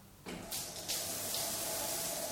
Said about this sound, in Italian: Per questo mi sto strofinando sotto la doccia.